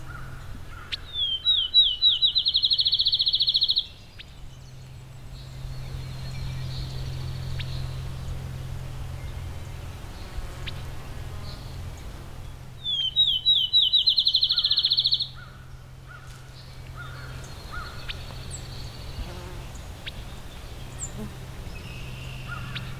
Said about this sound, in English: Pied-billed grebe.